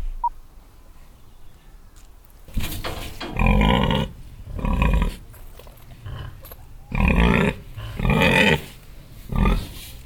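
Pigs grunt on a farm in an agricultural village, a series of loud, rough grunts in separate bursts with short pauses between them, no voices heard.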